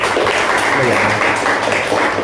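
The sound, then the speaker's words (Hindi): Audience applause at a youth radio quiz event: loud, continuous clapping that stays dense and even throughout. “आप सभी अपने लिए एक बार जोरदार तालियां।”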